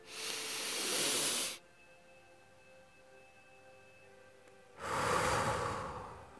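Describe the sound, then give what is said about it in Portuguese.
A deep breath slowly released: two long, airy, hissing breath sounds separated by a few seconds of near silence, soft and steady, with no talking. “eu quero que você faça uma respiração bem profunda e segure o ar por dois segundos e depois solte, sentindo toda a tensão do teu corpo desaparecendo quando você solta. Assim, ó.”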